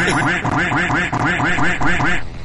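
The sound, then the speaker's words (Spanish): Duck quacking in a rapid, unbroken series of many loud, nasal quacks that repeat at an even rhythm and fill the whole stretch. “Cállate, pato. Eres un pato estúpido.”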